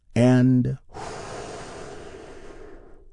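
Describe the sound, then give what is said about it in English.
A deep breath taken in and released during a guided healing exercise. A short voiced sound comes first, then a long, steady, airy breath gradually tapers off. “Take another big, deep, healing breath with me right now. All together, here we go.”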